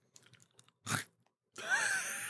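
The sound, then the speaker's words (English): Crunching bites of a gluten-free chocolate cupcake topped with quinoa crunch brittle: a few faint ticks, then a sharp crisp crunch, a short pause, and a longer, louder sustained crackling chew. “Our gluten-free chocolate cupcake has a quinoa crunch brittle, and it makes it crunchy.”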